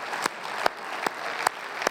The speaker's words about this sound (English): So I just want to give a clap offering and a praise offering to God for what he did for these men.